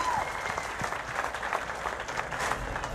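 Studio audience applause on a live radio show, honoring a guest: continuous, fairly soft clapping that keeps an even, unbroken texture throughout.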